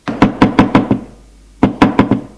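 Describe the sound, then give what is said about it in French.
Knocking on an office door: two quick runs of about four sharp knuckle raps each, separated by a short pause, loud and with no voices. “Deux heures plus tard, l'on frappe à son bureau.”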